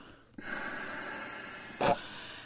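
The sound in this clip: A voice imitates a person blowing out a big breath: a long, breathy exhale rushes out, then one short, louder puff of air ends it.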